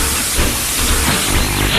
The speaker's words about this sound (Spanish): Cargamos el carbón. Motores a su máxima potencia. Y el tren comienza a avanzar.